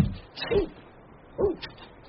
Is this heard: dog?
yes

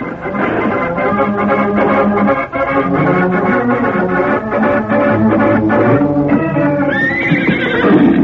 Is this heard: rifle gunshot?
no

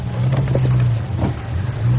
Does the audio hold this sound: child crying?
no

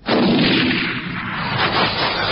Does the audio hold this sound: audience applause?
no

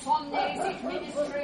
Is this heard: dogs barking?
yes

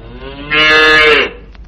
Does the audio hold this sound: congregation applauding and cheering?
no

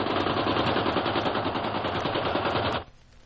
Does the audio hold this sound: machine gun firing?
yes

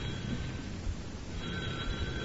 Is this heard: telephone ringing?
yes

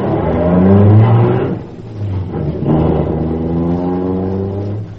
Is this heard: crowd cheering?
no

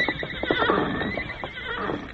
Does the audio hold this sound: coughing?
no

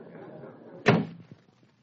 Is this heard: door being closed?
yes

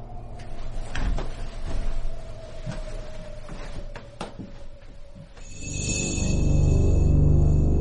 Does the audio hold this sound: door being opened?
yes

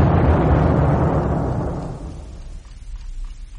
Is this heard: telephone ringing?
no

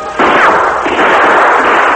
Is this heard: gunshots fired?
yes

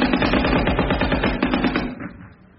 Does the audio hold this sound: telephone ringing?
no

